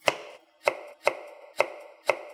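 Knife chopping an onion into coarse pieces on a board: five crisp, evenly spaced thuds with sharp attacks and short decays, sounding alone.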